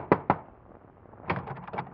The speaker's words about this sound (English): Your hand trembles as you knock on the door.